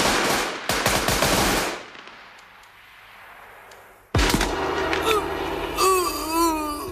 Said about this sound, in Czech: Střílejte. Střílej, no pal!